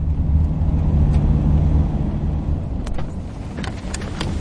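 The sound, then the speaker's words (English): A car's low, steady engine rumble as it pulls over by the side of the road in Kirua, easing slightly toward the end, with a few faint clicks near the close. “So we've just pulled over by the side of the road in Kirua, just round the corner from Priska's village.”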